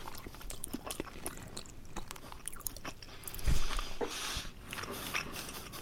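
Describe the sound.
Chewing and biting on a warm vegetarian patty shaped like a meatball, with a pressed, particle-board-like texture; soft, irregular crunching and mouth sounds, mostly faint, with a louder burst midway.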